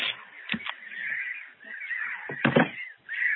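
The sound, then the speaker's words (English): Birds, crow-like, cawing in a few harsh, loud bursts over a steady, noisy chatter of calls. “so the birds have just invaded us, everyone.”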